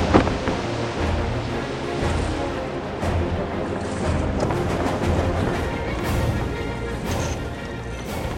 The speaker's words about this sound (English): Look, Captain, the wind's picking up.